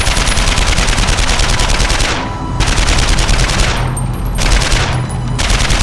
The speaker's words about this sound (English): The gun grew hot, and he had to slow his rate of fire.